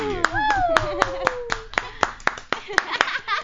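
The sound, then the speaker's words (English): Applause welcoming a guest onto a show, a steady run of loud hand claps with a voice cheering over the start. “Let's put our hands together and welcome our very special guest tonight, Miss Sophie D.”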